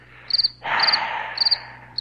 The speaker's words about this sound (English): where are my frickin' crickets? I'll just wait.